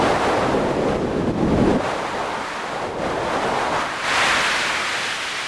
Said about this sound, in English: I was thinking that this would translate directly to something that might be similar to the sound of wind blowing here on Earth.